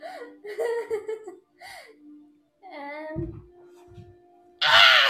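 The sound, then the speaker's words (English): A voice imitates a griffin's bird call: a few short voiced, wavering cries, then a loud, harsh, raspy screech bursts out at the end and holds briefly. “Grab the griffin in your hand for inspiration. What sound would that birdie make?”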